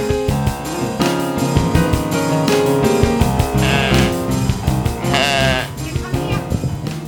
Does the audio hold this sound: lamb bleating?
yes